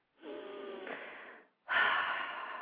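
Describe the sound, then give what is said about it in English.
Deep breathing in and out during a guided prayer meditation: two long, airy breaths, the first steady and soft for over a second, the second stronger and louder, with no talk over them. “Just breathe in and breathe out, in and out.”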